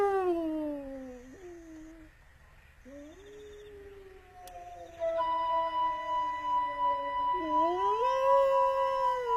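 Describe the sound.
Wolf howling: long, wavering calls that slide down and level off, several overlapping and sustained, with a louder, higher layer joining about halfway through and holding to the end.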